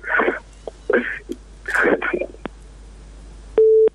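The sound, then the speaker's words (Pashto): A telephone tone from a disconnected phone line sounds once, steady and short, near the end after a stretch of talk. “اردن کې اړیکه شلیدلې ده، بل اردن کې را سره شته”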